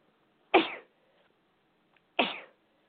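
Two sharp sneezes from a person, each an abrupt burst that quickly fades, separated by about a second and a half of near silence and fairly faint overall.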